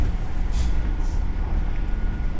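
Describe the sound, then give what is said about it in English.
Low, steady engine rumble from a 920 bus moving while passengers' luggage is loaded, a continuous deep drone with faint, breathy hiss above it. “Putting their luggage in the bus. That's why they moved up.”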